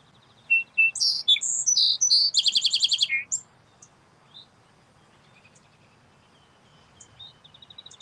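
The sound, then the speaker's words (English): Birds chirping outdoors: a busy burst of high, bright chirps and rapid trills in the first few seconds, followed by only scattered faint calls against a quiet, soft background. “Maybe you hear the slight breeze that's around me coming across on the mic. Birds chirping.”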